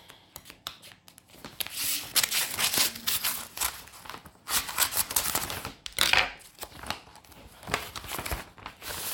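A paper envelope being torn open, giving many irregular crinkling, rustling and tearing bursts of paper that continue unevenly across several seconds with no talk.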